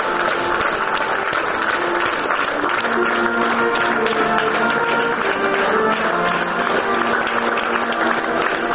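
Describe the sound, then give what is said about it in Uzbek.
Mourners at a soldier's funeral applaud as his coffin is carried from a theatre: sustained, dense clapping from many hands, even in loudness throughout. “Marosim tugab, tobut olib ketilayotganda uni oxirgi marta olqishlashdi.”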